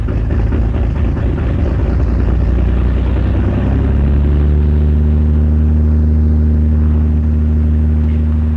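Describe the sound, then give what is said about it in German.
A German border police Puma helicopter takes off on a North Sea surveillance flight, producing a loud, continuous engine rumble and turbine roar. Partway through, steady humming tones settle in and hold under the dense noise to the end. “Ein Hubschrauber des Typs Puma startet zu 6 Beobachtungsflügen in der Woche.”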